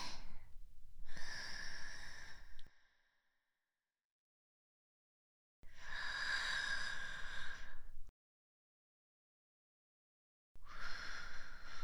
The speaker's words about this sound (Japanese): さあ、もう少し続けてみましょうか。吸って。吐いて。